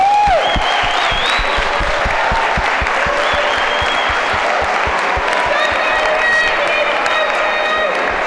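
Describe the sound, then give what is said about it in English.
A crowd applauds at the end of a tournament with continuous dense clapping that holds loud and steady throughout, with voices mixed in. “You're all winners, so a round of applause for”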